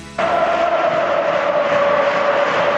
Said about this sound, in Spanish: Vuelve a animarse el público en Mestalla